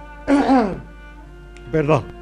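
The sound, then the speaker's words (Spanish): A person clears their throat twice, two short raspy voiced bursts with a falling pitch, the first longer and louder than the second, separated by a brief quiet pause. “Perdón, un poco de carraspera.”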